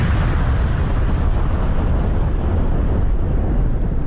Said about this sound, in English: Where's the bomb? I need one of those bombs, like it's going to fall on Iran tonight. There it is.